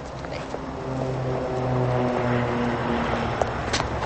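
An airplane's engine drones steadily as a passenger boards, a sustained, fairly loud tonal hum with layered harmonics and no clear rise or fall.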